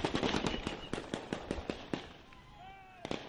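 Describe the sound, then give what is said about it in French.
Gunfire aimed at protesters in Ouagadougou: many sharp cracks in a fast, uneven volley that thins out, then a short lull before a few final shots. “Voilà pour les tirs contre les manifestants hier dans Ouagadougou.”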